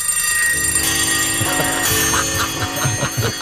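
Ringing bells layered together as a rock-themed bell montage, with sustained bright metallic tones and a few rhythmic struck hits in the second half, steady and fairly loud with no voices.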